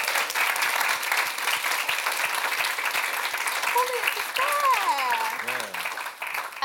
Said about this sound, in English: round of applause for JJ